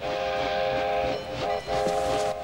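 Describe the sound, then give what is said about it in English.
A steam train arrives at a station, its whistle sounding in sustained, shrill blasts broken by brief gaps over a low rumble of the train on the rails. “Doc turns to the window and sees a steam train chug into Hill Valley Station.”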